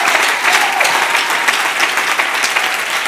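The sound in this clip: A church audience applauds during a worship service, with dense, steady clapping that holds at an even, loud level for about three seconds, with no pause.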